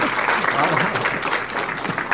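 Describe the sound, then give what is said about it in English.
Audience applause for a performer, a dense, steady patter of many hands clapping at an even level throughout, with voices faintly mixed in underneath. “So please give a round of applause again for Dirk Lil Sander.”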